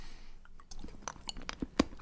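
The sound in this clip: Chewing on salted white chocolate: soft, irregular crunches and moist squishes repeat many times, faint and close, with one sharper crunch near the end.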